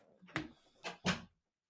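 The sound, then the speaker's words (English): A door being shut: a few soft knocks and rattles build to a firmer closing thud, then silence, all fairly quiet. “It's quite a nice door shutting.”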